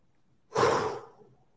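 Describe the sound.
A single deep breath, heard as one loud, breathy whoosh that starts abruptly and then tapers off gradually, with no talking around it.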